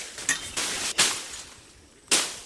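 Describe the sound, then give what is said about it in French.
A metal file scraping along a blunt machete blade to sharpen it for field work: a few gritty, rasping strokes with sharp starts, heard on their own without talk. “Je prends une lime pour aiguiser la maquette, pour pouvoir travailler.”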